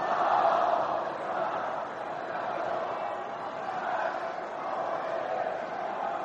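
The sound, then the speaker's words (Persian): An audience chants salawat together in unison, a loud, dense mass of voices that stays continuous and even for the whole stretch, strongest at the start. “صلوات دوم را بلندتر بفرستید.”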